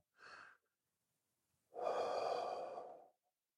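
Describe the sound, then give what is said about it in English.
A person breathing during a guided prayer: a short breath, then after a pause a longer, fuller one, soft and alone in silence. “Let's move into prayer. Taking a breath,”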